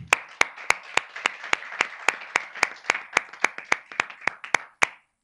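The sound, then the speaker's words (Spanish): Applause at a council meeting to congratulate a newly elected vice president. Many sharp, evenly spaced claps keep a steady rhythm over a softer wash of clapping, then stop abruptly. “así que les pido un aplauso para Antonio.”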